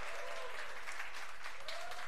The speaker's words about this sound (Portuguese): Quem gostou, vai de palma pra nós.